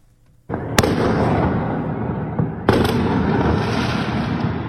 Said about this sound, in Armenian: Սահաթաշ չէ մարտական ֆիլմից, այլ հրավառություն՝ գիշերը 1:30-ի սահմաններում, Սարյան-Պուշկին փողոցներում։